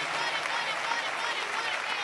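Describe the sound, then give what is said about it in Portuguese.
Church audience clapping in praise during a service, a dense, even wash of palms at low level that continues steadily throughout. “Pode louvar a Deus com palmas, igreja. Palmas para Jesus, palmas para Jesus.”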